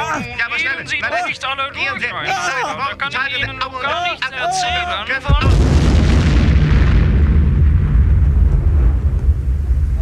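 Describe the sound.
A bomb explosion: hurried voices talk first, then a sudden loud blast bursts in and becomes a heavy, roaring rumble that slowly fades.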